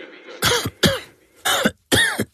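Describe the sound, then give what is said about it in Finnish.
Four harsh, loud coughs from a person in quick succession, evenly spaced with short silent gaps between them and no talk. “älä suotta köhi.”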